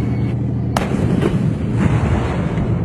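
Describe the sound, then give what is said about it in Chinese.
A single sharp cannon blast from a tank firing on the move during a live-fire assessment cracks over a continuous low rumble, followed by a fainter report. “为贴近实战化战场环境，考核组随机设置打击目标，要求车组成员采取行进间射击的方式，在规定时间和距离内完成精准打击。”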